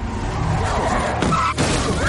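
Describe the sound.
A car rams into the back of another car during a chase on a road. A brief, harsh impact bursts out amid continuous engine and road noise.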